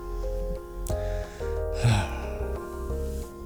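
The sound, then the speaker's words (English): A person takes a deep breath during a guided reflective exercise, a soft breathy inhale rising briefly over steady, gentle background music that continues throughout. “So take a nice deep breath.”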